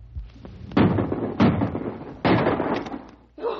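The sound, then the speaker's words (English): Rifle shots are fired at a charging grizzly bear in an old radio drama. A few heavy, sharp blasts come at uneven intervals, each with a short ringing tail. “Empty your rifle right into it!”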